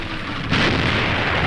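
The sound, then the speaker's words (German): A heavy burst of fire in a tank battle, with artillery, mortars and machine guns firing. A steady rushing roar jumps suddenly louder partway through and stays loud and broad to the end. “Ein mörderisches Feuer empfängt uns. Artillerie, Pack, Plack, Granatwerfer und MG von drei Seiten.”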